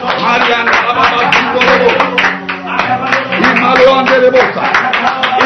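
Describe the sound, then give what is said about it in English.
Hands clapping from an audience during prayer, a loud, busy run of overlapping claps set against sustained tones and voices that carry on beneath them throughout. “Clap your hands and pray right”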